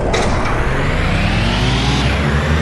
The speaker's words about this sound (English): the Cranked Up Quattro, the Classic. Select transmission mode, automatic, manual. You are player 2. Prepare to race. 3, 2, 1.